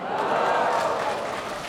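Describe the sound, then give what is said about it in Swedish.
An audience cheers and applauds at a concert of nyckelharpa and flute music, a dense, steady burst of clapping and cheering lasting under two seconds. “Jag kan väl säga det igen och så kan ni hurra, eller hur?”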